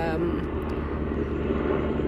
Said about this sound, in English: Sorry, there is a helicopter going over. Been going round and round, I don't know what it's doing.